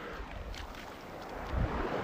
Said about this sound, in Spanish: escuchando el mar sin el viento